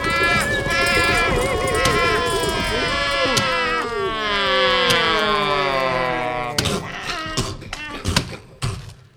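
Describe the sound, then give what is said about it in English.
A cattle herd stampede sound effect plays under loud, excited shouting voices, and heavy, irregular hoof thuds grow louder toward the end. “a stampede! Oh, no! There they go! Turn them, boys! Turn them, boys! They're heading for the cliff!”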